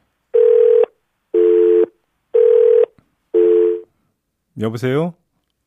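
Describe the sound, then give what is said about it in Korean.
Telephone beeps after a call drops mid-conversation: four evenly spaced, steady mid-pitched tones, each about half a second long, followed by a brief voice. “아, 예, 지금 전화가 잠깐 끊긴 것 같습니다.”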